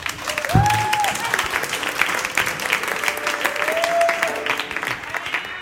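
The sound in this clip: Audience applause welcomes a speaker, a sea captain, to the stage at a talk. The dense, steady clapping stays moderately loud for the whole stretch.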